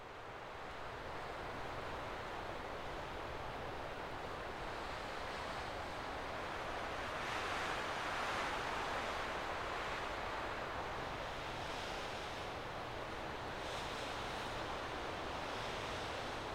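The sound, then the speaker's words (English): Wind blowing through the trees of a small grove, a faint, steady rushing hiss that swells slightly midway and continues without distinct gusts. “The trees on the outside of the wood took the hit of the wind, while the sound seemed mainly to come from above.”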